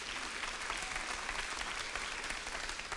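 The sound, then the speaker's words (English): A church audience claps together during a sermon, producing a steady, dense wash of applause that holds at an even level for the whole stretch, with no voices over it. “yeah, we can clap for that”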